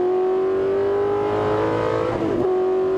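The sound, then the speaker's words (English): A race car engine accelerates on a track, its high, buzzing note holding strong and steady. A brief wobble near the end sounds like a quick short shift, and then the engine drives on at full power. “Squeeze power, squeeze power. A little short shift to help it turn, and on the gas through the bottom S's, get to full.”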